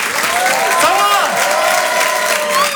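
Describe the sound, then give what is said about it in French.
Steady applause from an audience greeting a comedian at a stand-up comedy contest, a dense even clatter of many hands with a voice speaking over it. “Je vous demande de l'applaudir très fort pour cet Open du Rire.”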